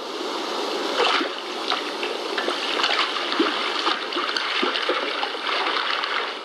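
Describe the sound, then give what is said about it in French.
Shad fish slapping the water surface with their tails while spawning make many irregular splashes and slaps over a continuous wash of moving water. “elles remontent vers la surface de l'eau et tournent en rond en frappant la surface avec leur queue. Ce comportement, on appelle ça un bulle. Écoutez plutôt.”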